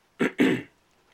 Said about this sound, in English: sorry for all the coughing, by the way. I'm not sick or anything. It's just these fucking allergies.